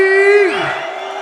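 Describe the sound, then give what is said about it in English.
A club crowd at XOYO roars and cheers for DJ Andy C during a live mix, a dense wash of noise that swells up behind a sustained tonal note as that note falls away. “Somebody make some noise for Andy C.”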